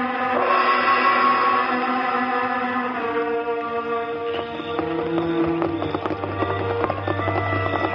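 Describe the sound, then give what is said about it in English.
Horse hooves clip-clop in a radio western as a rider reins in, with rhythmic hoofbeats over sustained tonal music. “It was nearly midnight when the Lone Ranger, wearing his mask and riding clothes, drew rein in the rear of Sheriff Winters' home.”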